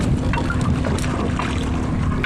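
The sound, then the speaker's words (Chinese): Fishing boat motors on a lake drone as a steady, dense engine rumble, mixed with wind noise and without any talking. “伴随着渔船此起彼伏的马达声，他们竞相收获着大自然的馈赠。”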